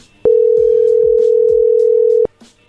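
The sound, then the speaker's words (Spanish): A telephone ringback tone on an unanswered call: one steady mid-pitched tone held for about two seconds, then cut off, with a few faint clicks around it. “le estamos marcando, pero no contesta. A ver, ahí va de nuevo.”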